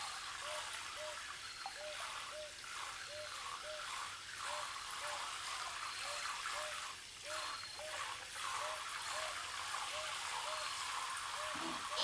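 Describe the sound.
Water pours and splashes as shampoo foam is rinsed out of hair, making a steady hissing rush broken by many soft, rhythmic sloshing pulses throughout.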